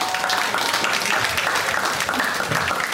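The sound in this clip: Audience applause at the close of a talk: a burst of many hands clapping, fairly loud and continuous, with a slightly uneven, rippling texture.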